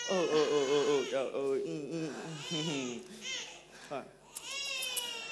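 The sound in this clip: An infant cries in a run of rising and falling wails, broken into repeated bursts, with whimpering sounds toward the end.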